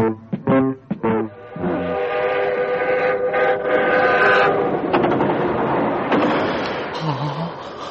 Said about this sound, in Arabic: سأستقل قطار الغد إلى القاهرة